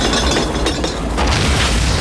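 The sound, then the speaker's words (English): A wagon loaded with nitro crashes into a saloon and explodes, heard as a loud, dense, sustained roar of blast and debris with a heavy low rumble that fills the whole stretch without letting up. “The wagon crashes into the saloon and the nitro explodes, ripping the building apart.”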